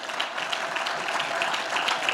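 An audience applauds during a French-language church sermon. The clapping is dense and continuous and stays at a fairly even level without pause.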